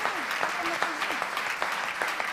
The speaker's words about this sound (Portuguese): Dá um aplauso a Deus uma vez mais.